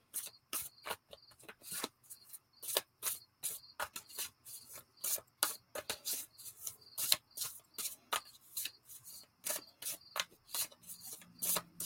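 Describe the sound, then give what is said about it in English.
Tarot cards being shuffled and drawn, heard as many quick, rasping papery bursts in a fairly steady rhythm. The sound is faint and continuous, with no voices. “But let me pull up some cards.”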